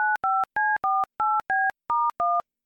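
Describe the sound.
Touch-tone telephone dialing connecting a caller: eight short two-note beeps in a quick, even rhythm with brief gaps between them, each tone steady and clear, with no voices.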